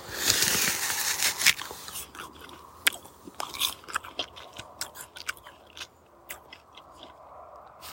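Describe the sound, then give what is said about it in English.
Biting into and chewing a small, hard, unripe apple picked straight from the tree: many crisp, sharp crunches at an uneven pace, loud at first and then softer, wetter munching. “And there's an apple here, very small. Oh, right, okay, I'm going to bite into it.”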